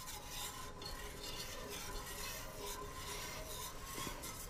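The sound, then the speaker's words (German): Milk made from powdered milk is heated in a pot and stirred. A faint, continuous scraping and rubbing runs steadily throughout with no pauses. “Was kochst du da? Milch. Aus Milchpulver.”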